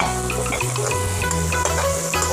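Minced ginger and garlic sizzle loudly as they are stir-fried in hot oil, a dense, steady hiss that runs unbroken throughout.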